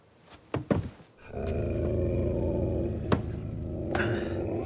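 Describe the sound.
A dog growls in a low, sustained rumble that begins after a few brief sharp sounds. The growl holds steady and fairly quiet to the end, with one short spike midway.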